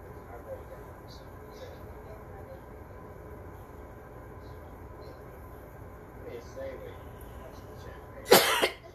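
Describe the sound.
A brief burst of coughing near the end, caused by something stuck in the back of the throat, rising sharply out of a quiet, low background hum.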